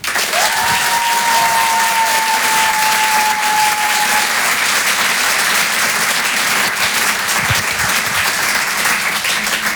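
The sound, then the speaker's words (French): Sustained applause from an audience welcoming a comedian on a first appearance, a dense, even wash of clapping lasting throughout, with one long whistle near the start. “Je vous demande de l'encourager. Faites du bruit, s'il vous plaît, pour son tout premier passage sur Rire et Chanson, Simon Pinto.”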